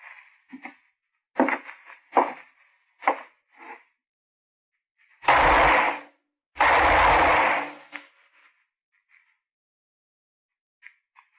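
Two loud, sustained gunshot blasts in a radio drama, the gun earlier used on White, following a few fainter sharp sounds, with silence afterward.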